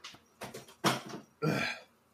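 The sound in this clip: A person clears their throat in a few short, rough, rasping bursts, the later ones louder and longer, with no words spoken.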